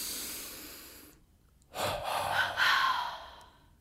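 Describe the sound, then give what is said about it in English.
Breathing exercise: an inhale with the body tensed, a short pause, then two forceful exhales in quick succession, breathy and fairly loud. “All you do is you inhale, tense your body completely, and then double exhale.”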